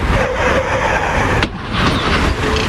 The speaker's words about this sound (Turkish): Küçük çocuk bisikletiyle yaya geçidinden yolun karşısına geçmek istedi. Durmayan otomobil çocuğa çarptı. Feci kaza sırasında kamera kayıttaydı.